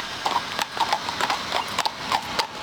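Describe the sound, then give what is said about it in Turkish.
Hoof clip-clops of mounted police horses, brought from Hungary and specially trained, patrolling at Ankara Castle: many irregular, fairly faint hoof strikes on a hard surface in an uneven walking rhythm. “22 farklı atlı birlik Ankara'nın farklı noktalarında görev yapıyor. Bugün de Ankara Kalesi'ndeler.”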